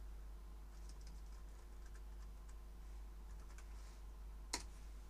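Faint typing on a computer keyboard while entering an answer in an online quiz chat: many soft, irregular key clicks over a low steady hum, with one sharper click near the end.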